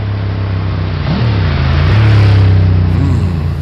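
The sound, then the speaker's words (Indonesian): A big motorbike engine runs loud and steady while riding through a forest, its low, throaty drone shifting in pitch a few times as the throttle changes. “Enak juga naik moge di tengah hutan gak pakai helm.”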